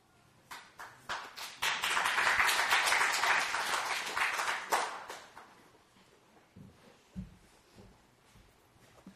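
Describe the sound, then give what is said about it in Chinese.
A church audience claps. A few scattered claps swell into dense applause, then thin out into isolated claps and soft taps, all at a fairly low level. “谢谢大家，我还没上来就拍手，感觉很好。”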